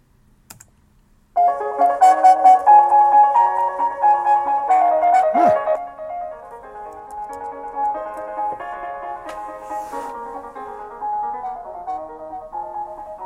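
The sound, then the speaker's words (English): A fast classical prelude in C-sharp major plays through small computer speakers, entering after a brief silence as a dense, rapid stream of bright notes that stays loud and steady, thinning slightly toward the end. “So here's what the original Prelude number 3 in C-sharp major sounds like. It's a pretty fast piece anyway.”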